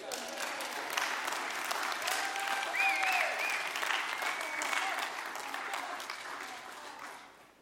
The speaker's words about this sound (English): give my lovely assistant a round of applause.